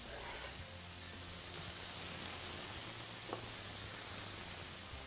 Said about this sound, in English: just a little bit of chop on this thyme. We're gonna throw that right in the pan.